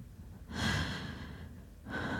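Heavy breathing as someone catches their breath after exertion: long, loud, airy breaths, one running for over a second and another beginning right after a brief pause, with no talk.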